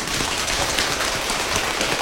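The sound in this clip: Dense, steady rain patters in a continuous hiss of fine droplet ticks, evenly loud throughout with no voices.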